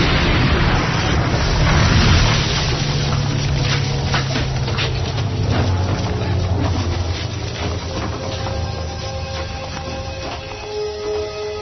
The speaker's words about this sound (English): We're unable to open the main door. Can you blast a hole in it from where you are? I think so. Clear the area for 10 meters. Quickly, get back.